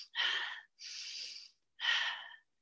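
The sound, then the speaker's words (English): Three short, breathy bursts of airflow from a person demonstrating shallow breathing, each about half a second long with brief gaps between, fairly loud and heard alone without talk. “If I come into a shallow breathing pattern, let's say I've had an injury, I have back pain, or I have a lot of stress in my life, or I'm kind of kyphotic because of my job, and I start breathing,”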